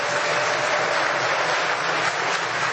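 An audience applauding during a church service, a dense, steady wash of clapping that stays even and continuous throughout, with no voices on top.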